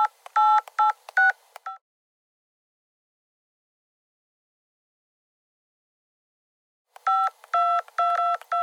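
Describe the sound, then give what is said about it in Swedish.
Touch-tone keypad beeps of a telephone number being dialed to call the landlord about a broken elevator: a quick run of short tones, a long silence, then another run of tones, with no talking. “Vänta, jag ska ringa värden.”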